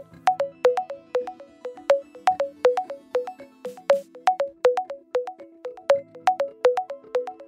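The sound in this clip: An electronic phone tone sounds during an outgoing call: many short, bright beeps repeat in a quick, steady rhythmic pattern, loud and alone for several seconds.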